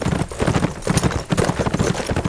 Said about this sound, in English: He walked his horse up to the group.